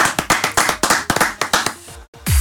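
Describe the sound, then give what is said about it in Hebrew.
Hands clapping in a steady rhythm as a crowd greets two performers on a music show, with many sharp, crisp claps in a regular beat, then a short pause before a loud low thump at the end. “תנו להם לחיות כפיים.”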